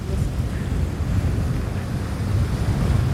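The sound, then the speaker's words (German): Wind and waves around a 128-year-old sailing ship under sail: a steady, loud rushing hiss with deep low rumbling and gusty buffeting throughout, no voices. “Fertig. Segel steht. Hey, wir segeln!”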